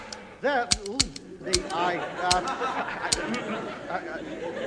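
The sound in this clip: Gun clicking empty with no bullets: several dry, sharp clicks of the trigger and hammer scattered among excited voices and chatter.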